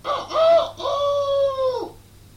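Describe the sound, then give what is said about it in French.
A human voice imitates a rooster's crow during a French-language recital of farm animal sounds: one loud, harmonic call alone, two short clipped syllables followed by a long drawn-out note that drops off at the end. “les coqs faisaient”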